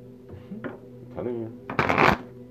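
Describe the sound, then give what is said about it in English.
Deck of tarot cards being cut and shuffled: soft handling sounds give way to a crisp, loud riffle burst near the end, alongside a voice and steady background tones. “what are you doing? Cutting the deck.”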